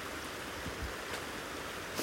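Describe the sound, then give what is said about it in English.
Steady rushing of a brook running through forest land: a continuous, even wash of flowing water that holds at a constant level throughout, with no voices. “I'm at one of them right now, a primary one, a brook, Eddie's Brook, that runs through this land.”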